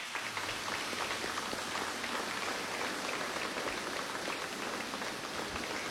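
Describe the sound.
Applause from an audience at a Mass in a church, a faint, even crackle of many hands clapping that continues throughout without pause.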